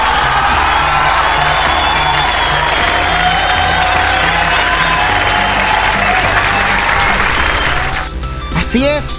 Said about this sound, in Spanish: Ay, un aplauso para todos ustedes.